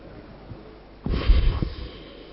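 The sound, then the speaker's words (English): A single noisy breath is drawn and released during a guided breathing and forgiveness exercise. It is a short burst of airy rushing against a quiet background, with no talking. “Breathe in and out.”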